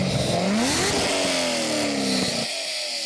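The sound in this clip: A car with an LS engine revving hard: a loud, raspy engine roar whose pitch climbs briefly, then falls steadily as the revs drop. The low rumble cuts off abruptly near the end.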